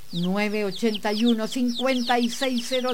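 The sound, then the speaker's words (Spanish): Free-range hens that peck at grass on an egg farm cluck in a run of many short, nasal, repeated calls, each rising then dropping, steady and fairly loud. “nuestras gallinas corren libres, picoteando hierbas bajo el cielo abierto”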